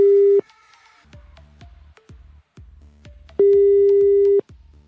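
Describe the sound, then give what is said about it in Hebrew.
Ringback tone of an unanswered telephone call: two long, steady, loud tones, the second lasting about a second, with quieter intermittent low sounds in between. “טוב, הוא לא עונה סיני. סיני לא עונה”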